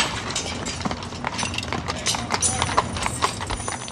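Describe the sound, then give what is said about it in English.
Horses' hooves clip-clop as mounted men ride out from the stables toward the gates of Arlington National Cemetery, with many irregular, overlapping hoof strikes sounding continuously at a steady walking pace. “The men mount and prepare to leave for the gates of Arlington.”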